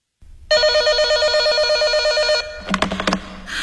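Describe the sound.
A telephone rings late at night in one long, steady electronic trill lasting about two seconds. It stops abruptly and is followed by a few sharp clicks and clatter, as if the receiver is being handled.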